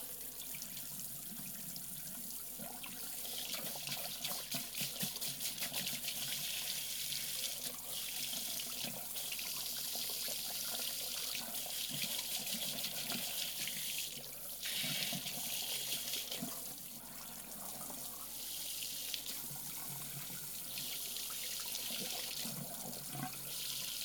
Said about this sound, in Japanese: では、髪を濡らしますね。お湯加減は大丈夫ですか？